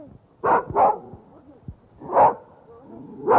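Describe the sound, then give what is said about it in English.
A fox terrier in a city park barks four times: two sharp barks close together, a pause, then two more spaced farther apart, over faint background noise. “in Kampa Park in Prague's ancient Lesser Quarter, where I persuaded a fox terrier, owned by an old lady in a fur coat, to give me a sound effect.”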